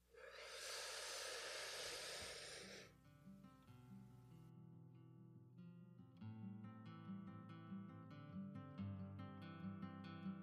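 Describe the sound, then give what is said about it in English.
During a guided breathing exercise, a long deep inhale comes through as a loud, steady breathy hiss lasting about three seconds, then soft sustained music takes over. “And then once you exhale, anything that no longer resonates with you will leave you and you'll be in a more positive state. So let's go ahead and take a deep breath in.”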